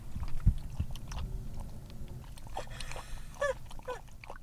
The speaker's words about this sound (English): This is the sound of my dog drinking water in the car.